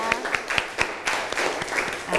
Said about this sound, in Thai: ปรบมือให้เพื่อนกลุ่มที่1นะคะ